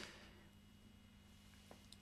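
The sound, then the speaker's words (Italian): Telephone call tone while calling someone: near-silence with a faint steady hum, then a loud, pure, mid-pitched tone starts abruptly at the very end. “No, sto chiamando Pinuccio.”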